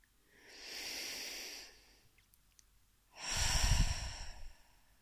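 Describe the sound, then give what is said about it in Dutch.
Deep breathing: one slow, hissing inhale through the nose, then after a short pause a longer, fuller exhale through the mouth with a soft, breathy rush. “En adem dan diep in door je neus naar je buik. En uit door je mond.”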